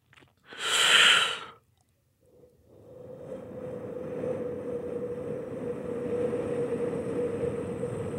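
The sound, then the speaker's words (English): Breath sounds imitating wind: a short, loud gasping inhale, a brief silence, then a long, steady, breathy whoosh with a faint hum running beneath it to the end. “So inhalations and gasps. So wind sounds like this.”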